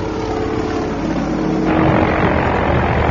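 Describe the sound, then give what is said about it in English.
Propeller engine drone of a 3,000-pound Cessna small aircraft landing on a sand airstrip, loud and continuous, turning broader and rougher about halfway through. “The Cessna touches down on the sand, but at 3,000 pounds, this small aircraft is only a fraction of the weight of a 25,000-pound DC-3.”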